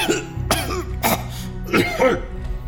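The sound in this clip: A woman coughs in a few short, harsh bursts, with rough throat-clearing sounds between them, loud and close.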